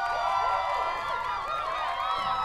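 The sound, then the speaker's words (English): Canned sitcom audience reactions played from a device form a sustained swell of many voices with a wavering, rising and falling tone, holding at an even level throughout. “They're obsessed with American sitcoms. They had me make them a device that plays automatic audience reactions.”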